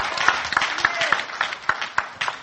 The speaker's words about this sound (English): Give the Lord a hand clap of praise.